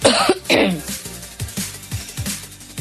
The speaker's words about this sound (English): Hold that cough.